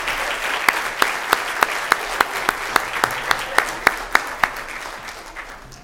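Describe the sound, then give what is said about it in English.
Parents and grandparents applaud a fourth grade school chorus at a school meeting: dense, steady clapping with one person's loud, evenly spaced claps cutting through at a regular beat, tapering slightly toward the end. “Let's have another hand for the Willowbrook fourth grade chorus.”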